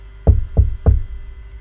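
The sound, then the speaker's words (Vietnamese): Three dull, low knocks on a door, evenly spaced and alone, each a short thud that dies away quickly. “Sau đó lên trời gõ cửa lại.”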